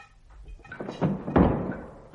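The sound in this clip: A door is pushed shut, giving a few dull, low thunks that end in a firmer thud, all fairly faint and with no voices over them.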